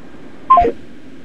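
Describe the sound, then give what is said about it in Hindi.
A short electronic telephone beep as an incoming call cuts off by itself. It is a quick stepped burst of tones about a fifth of a second long, heard over a steady low hiss. “जी हाँ, phone आया और स्वतः cut गया।”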